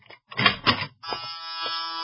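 A door buzzer sounds at a clinic entrance. It is a steady, bright electric buzz rich in harmonics that fills the second half, after two short rough bursts.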